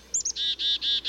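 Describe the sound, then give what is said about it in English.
A black-capped chickadee gives its call: two quick, very high notes followed by three longer, buzzy, evenly spaced notes, clear and alone. “You can usually hear the black-capped chickadees call throughout fall and winter, but they aren't singing much.”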